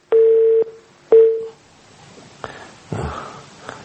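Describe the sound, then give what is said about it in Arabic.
Telephone line tones as a caller connects to a call-in line: two steady, clear beeps at the same pitch, each about half a second long, followed by faint rustling noise. “طيب معنا اتصال”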